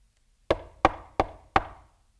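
Four sharp knocks on a door, evenly spaced raps that each decay quickly, standing alone against silence.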